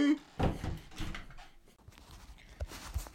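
A chair being pulled out: a few dull scraping and knocking bursts at moderate loudness, followed by fainter thumps.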